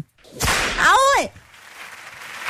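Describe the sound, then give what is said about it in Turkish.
One sharp whip crack lashing out at a person, followed right after by a short wavering vocal cry, then quiet. “Madem bugün istemiyorsun, ben de sana bu talebini göz önünde bulundurup bir kere kırbaçlıyorum.”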